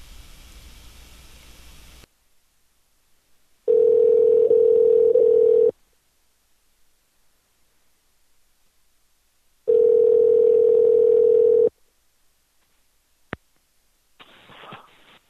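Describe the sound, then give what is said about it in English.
Ringback tone on a phone line while calling a number back: two long, steady mid-pitched tones separated by long silent gaps, then a sharp click and a short burst of noise. “Okay, one more call. I think he turned his phone off, but we'll give him another call back.”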